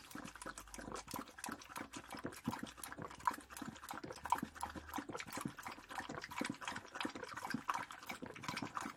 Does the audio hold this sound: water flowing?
yes